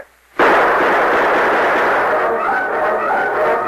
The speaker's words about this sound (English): As the torch flared through the darkness, the outlaws opened fire.